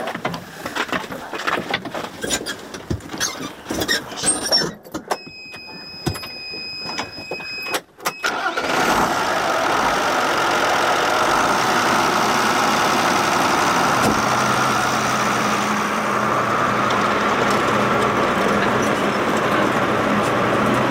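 Tractor engine starting in a grain field at nightfall: several seconds of scattered clicks and rattles, then the engine catches and settles into a steady, even idling hum that runs to the end.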